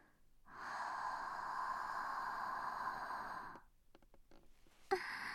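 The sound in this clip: A long, steady breath is blown straight out at the listener, soft and airy for about three seconds, then a few faint mouth clicks and one brief sharper puff.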